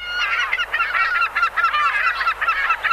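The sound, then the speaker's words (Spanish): Waterfowl calls, given as ducks: a dense, continuous stream of nasal, honking quacks, many overlapping calls in an uneven rhythm, fairly loud and with no talk. “Había todo tipo de aves. Escucha. Los patos,”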